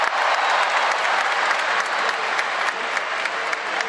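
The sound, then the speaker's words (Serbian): Crowd applause in the Kombank Arena during a water polo match against Slovakia, an even, sustained patter of many hands at moderate loudness, with no talk. “Evo, čujete aplauze ovde u Kombank areni”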